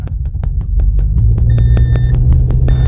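A car engine rumbles low and steady as the car drives off. A rapid train of regular ticking clicks runs over it, with a short high beep partway through.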